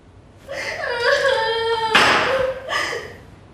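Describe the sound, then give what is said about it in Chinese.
A woman crying in wavering, high, tearful wails that rise and fall, broken by a sharp breathy sob partway through before a final shorter wail. “你别哭了，你觉得委屈是吗？”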